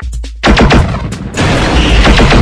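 Video game gunfire shoots down a helicopter: loud, rapid bursts of automatic fire crackle in dense succession, with heavy booming blasts and a roaring wash of noise filling the gaps between volleys.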